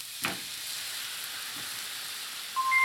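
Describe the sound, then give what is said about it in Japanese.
Fresh cream hits a pan of browned, sautéed mushrooms, giving a steady sizzling hiss with a couple of faint ticks, and the sizzle swells louder near the end. “水分がしっかりなくなって少し焦げ目が出てきましたので、そうしたらここに生クリームを一気に加えます。”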